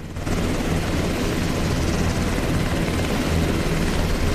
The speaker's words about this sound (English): a helicopter flies out across the Californian countryside in the early morning light with Harris and Price on board